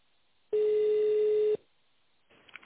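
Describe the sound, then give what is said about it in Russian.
A fax tone on a telephone line: one flat, steady beep lasting about a second with narrow phone-line clarity, followed by faint line noise. “В настоящее время вы можете отправить факс по телефону.”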